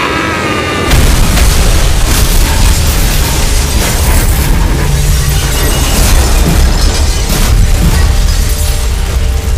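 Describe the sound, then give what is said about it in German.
A kerosene explosion after a plane crash bursts in with a sudden loud boom about a second in, then a dense, sustained roar with crackling and rattling debris that continues steadily to the end. “Das Kerosin explodierte, vergrub die Trümmer unter einem Flammenmeer.”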